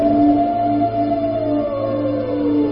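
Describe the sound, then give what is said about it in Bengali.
A Norwegian wild fox howls in a long, loud, sustained wail whose upper pitch slowly falls, carried over steady lower tones for nearly three seconds without a break. “নরবীজীয় বুনো শেয়ালের ডাক শোনা যাচ্ছে মাঝে মাঝে।”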